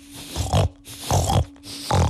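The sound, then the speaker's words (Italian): Pigs grunting and snorting in three loud, rough bursts, each low and throaty, separated by brief quieter gaps. “Insomma, Circe li aveva trasformati in tanti... Maiali! Eccoli.”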